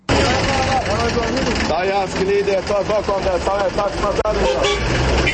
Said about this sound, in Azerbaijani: Bu səslər müxtəlif ünvanlara tələsən sərnişinləri mikroavtobuslara çağırır.